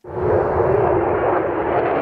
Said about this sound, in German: Die F-35 Lightning II. Auf Flugshows ist sie seit längerem zu sehen.